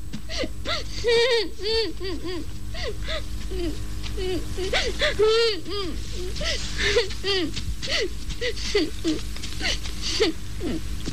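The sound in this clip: A child crying, with many short wavering wails and whimpering sobs over a steady low hum, fairly loud throughout.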